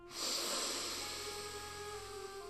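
A deep breath drawn in during a guided meditation for easing anxiety: a long, airy inhale that starts abruptly and holds at a steady level for about two seconds, softening slightly toward the end.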